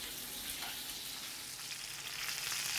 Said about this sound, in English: But if you're in a, sa- a saute pan like this, you're just gonna, the moisture is just coming out. You know, it's just white, it steams a lot more.